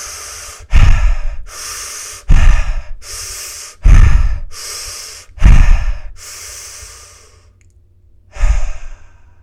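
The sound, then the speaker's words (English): Five big deep breaths, each a loud, sharp intake followed by a long, airy exhale, with a longer pause before the last one and no talking. “Let's take 5 big deep breaths.”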